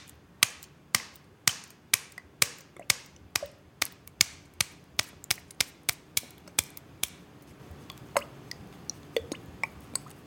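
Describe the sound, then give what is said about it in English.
Sharp slaps of a palm banging a glass ketchup bottle to get the ketchup out: many quick, crisp percussive hits in a steady beat that grow sparser and more irregular toward the end. “That was the sound of ketchup coming out of a glass bottle. So I was banging that glass bottle with the palm of my hand in order to get the ketchup out of it.”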